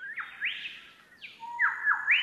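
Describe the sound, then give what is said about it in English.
A magpie's song: several clear, fluting whistled phrases with swooping notes that rise and fall, moderately loud with no other sounds. “That's a song. That's a call. Now that's a song. Magpie.”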